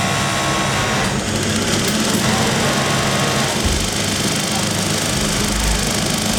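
Foot-pedal sewing machine running steadily, a dense continuous mechanical whirr and rattle that holds at an even level for the whole stretch with no pauses.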